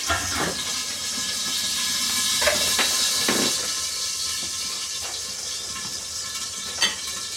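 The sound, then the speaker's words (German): Onions fry in hot oil in a pot with a steady, bright sizzling hiss, broken by a few brief knocks. “Und die Zwiebeln in dem einen Topf einfach mal braten.”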